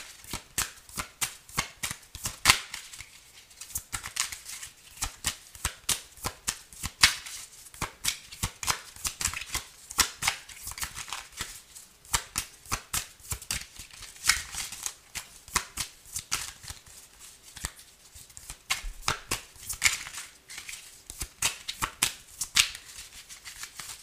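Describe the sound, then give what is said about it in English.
Tarot cards being shuffled: many quick, crisp papery riffles and slaps, fairly soft, repeating in irregular bursts throughout. “Cards seem to want to fall out, but they can't seem to get out.”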